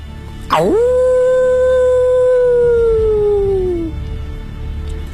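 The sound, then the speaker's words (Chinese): A single wolf gives a long, mournful howl. It swoops up sharply at the start, holds a steady tone for several seconds, then sinks and fades, over a low background hum. “后面的十余只狼似乎下狠心做了决定，悲鸣地望了望死去的同胞，转头朝村口狂奔而去。”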